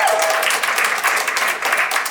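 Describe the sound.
Audience cheering and applause for a guest instructor at a live evening show: a dense, steady wash of clapping and shouts that holds evenly loud through the whole short moment.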